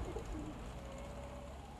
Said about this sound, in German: Brave Taube, brave!